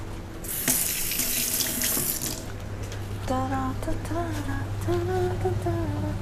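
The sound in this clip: Tap water runs in a steady gush as someone rinses pepper from wet hands while cooking. A voice follows after the loud rush of water ends.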